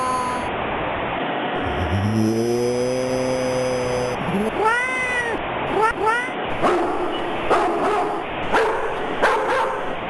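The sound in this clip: Dogs barking loudly: a drawn-out, whining yelp, then a few sharp, loud barks and further yelps, all over a constant, broad background noise.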